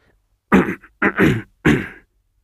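A man clears his throat in a few rough, guttural bursts, the middle one a double push, heard alone against silence.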